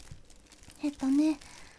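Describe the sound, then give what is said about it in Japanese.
A plastic bag is handled, giving brief, faint crinkling rustles while a person lets out a short grunt of effort. “こちらにですね、よいしょ、ビニール袋を用意しました。”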